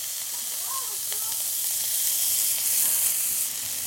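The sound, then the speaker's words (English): Onions, carrots and peppers sizzle in a pan, a steady, even hiss of frying vegetables that holds at a constant level throughout, with no clear voices over it. “So we're letting the onions caramelize a little bit. We're not getting caramelized onions, but we just want to get some caramelization and bring out the natural sugars.”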